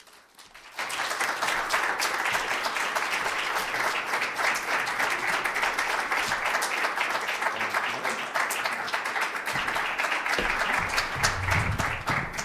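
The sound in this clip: An audience applauds to welcome speakers at an evening book conversation about the freedom to marry. The clapping starts after a brief quiet moment and stays loud and steady for about twelve seconds.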